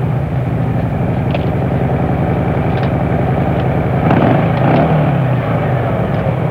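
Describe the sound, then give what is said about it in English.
Engine of a Yamaha FZR 600R, a 600cc street motorcycle, holds a steady, loud droning hum with a rich low buzz that swells slightly toward the end. “A healthy dose of FZR 600R, the best performing 600cc street bike anywhere.”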